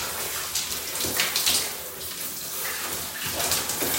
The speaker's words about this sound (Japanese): 洗い終わったので流していきます。はい。今流してます。